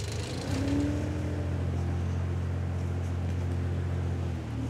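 Engine of a small farm machine driven by children, accelerating under light throttle: a loud, steady low engine drone with a brief lift in revs near the start, with no talk.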